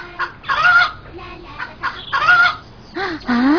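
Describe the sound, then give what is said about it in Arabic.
Rooster crowing in a few loud, harmonic bursts, with clucking fowl calls between them and no talk. “ديك؟ من أين أتى هذا الديك؟”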